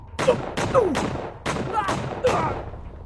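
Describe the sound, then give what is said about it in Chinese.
A burst of repeated gunshots fires several sharp, loud blasts in an irregular volley. Each crack rings out briefly before the next, and there is no speech. “外面就突然传来枪声，不止一声，起码接二连三，似乎还有惨叫。”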